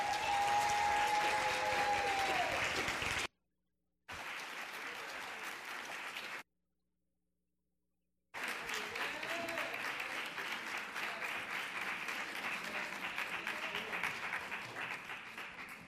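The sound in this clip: An audience applauds to welcome a rabbi and rebbetzin at a Sukkot and Shabbat celebration. The clapping is steady and dense, broken by two silent gaps, then resumes strongly to the end.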